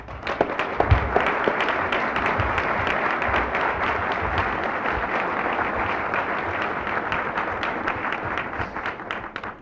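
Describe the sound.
Audience applause welcoming a government secretary at a press club: a continuous, dense wash of clapping that holds steady and loud throughout, thinning slightly only at the very end.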